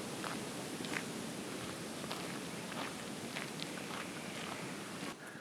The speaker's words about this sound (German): Jetzt gehen wir ein Stück den Kanal entlang